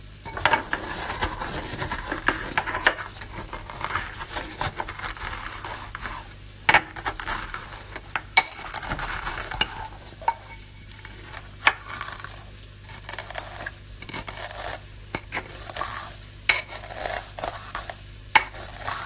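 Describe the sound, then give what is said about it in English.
Coriander seeds rattle and crackle in a hot pan, a dense, continuous patter lasting throughout with many sharp clicks and pops standing out, steady in loudness with no voices. “it's coriander seeds. They sound great. Listen to that. I wonder how loud it's going to be.”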